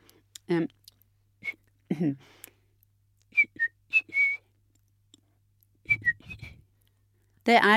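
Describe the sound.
A family whistle signal, based on the opening phrase of Bartók's Piano Concerto No. 3, is whistled as a few short, high, clear notes in two brief phrases. Bits of speech come before, between and after the whistling.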